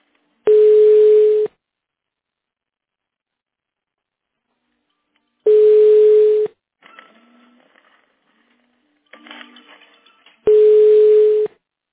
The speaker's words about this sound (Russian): чего-то я сам себе звоню.